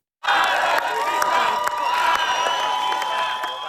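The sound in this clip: Crowd cheering and shouting outside the Hungarian parliament in the morning as a newly elected prime minister arrives. The loud, dense roar starts abruptly and holds steady throughout, with sharp shouts rising from the mass of voices.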